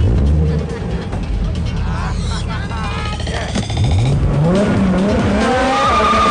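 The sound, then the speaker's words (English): A car accelerates hard away down a street, its engine roaring loudly. The note climbs steadily in pitch toward the end as it gathers speed. “He accelerates away down the street.”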